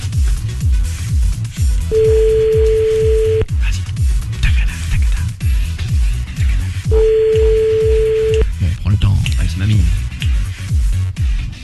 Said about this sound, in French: D'accord, on y va, on appelle mamie.